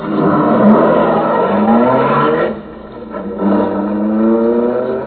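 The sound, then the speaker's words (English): A car engine hums as the car starts driving. The low, steady note swells in a couple of rising sweeps, dips briefly near the middle, then picks up again. “Hand me the steering wheel. Climb up front and start driving.”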